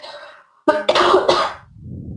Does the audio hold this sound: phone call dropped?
no